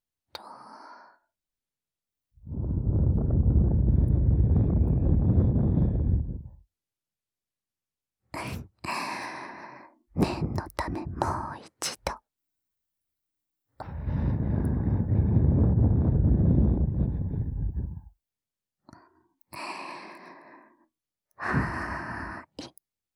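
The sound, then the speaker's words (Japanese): Breath is blown into the ear to clear leftover earwax after ear cleaning: two long, soft, rushing exhalations, each lasting a few seconds, separated by shorter, sharper breathy puffs and small clicks. “取りきれなかった耳かすも吐息で吹き飛ばして、”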